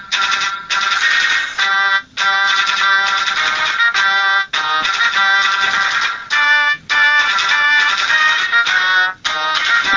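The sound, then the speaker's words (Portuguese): A MIDI mobile phone ringtone signalling an incoming call: a bright electronic melody played loud and alone, its short phrase repeating several times with brief gaps between repeats. “Uma outra possibilidade é quando, sei lá, o seu chefe ligar para você.”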